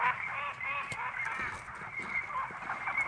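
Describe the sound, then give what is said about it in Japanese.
Noisy birds calling: many overlapping honking, squawking calls, fairly faint but continuous, with no pause in the chatter. “鳥がうるさい”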